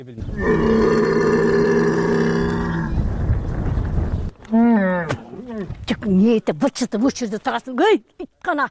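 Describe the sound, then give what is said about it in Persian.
A hungry camel, starving in a drought, gives a long, sustained, low droning moan, then a run of shorter groans that rise and fall in pitch, loud throughout. “این شتر از گرسنگی مینالد و التجا میکند که خوراک دهم، ولی از کجا گیرم؟”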